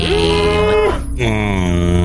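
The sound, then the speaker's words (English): A young cow moos in a video game, giving two long, low, drawn-out moos separated by a short break, loud and clear with no talk over them. “I have spotted a young cow. Then let's go get that cow.”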